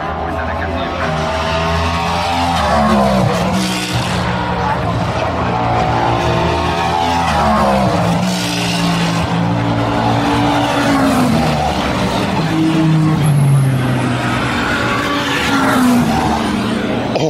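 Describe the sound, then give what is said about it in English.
A Ferrari race car at Le Mans passes and brakes into the Tertre Rouge corner. Its loud, harmonic engine roar swings up and down and drops in pitch as it slows, with other race cars blending in throughout. “That Ferrari that went past third then, being a little ginger coming into Tête Rouge, the others are breaking at the last possible second.”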